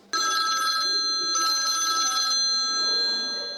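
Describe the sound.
Electronic telephone ringing as a caller dials in to a radio quiz: two bright, high, steady ringing bursts of about a second each, separated by a short gap, over a lingering tonal hum, with no talk.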